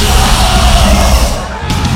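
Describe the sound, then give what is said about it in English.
Loud, tumultuous crowd noise from a punk rock mosh pit, a dense roar of yelling voices that dips briefly before swelling again. “Ward holds his shotgun across his chest as he shoves a path for them through a mosh pit. Tika gets swallowed up by the tumultuous crowd.”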